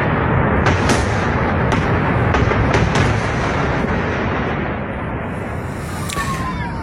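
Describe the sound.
Explosions from the Israeli bombardment of the Lebanese port city of Tyre: a continuous heavy, roaring rumble punctuated by several sharp bangs in the first half, easing slightly toward the end.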